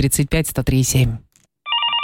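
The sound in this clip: A telephone rings with a bright, steady electronic trill as a radio listener calls in to a ticket giveaway. Speech comes first, followed by a brief pause and then the ringing.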